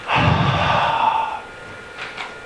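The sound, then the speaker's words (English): A preacher imitating someone breathing on others during a sermon: one long, forceful, breathy exhale, followed by two faint, soft breath sounds. “Jesus looked at them and breathed on them. So Jesus goes,”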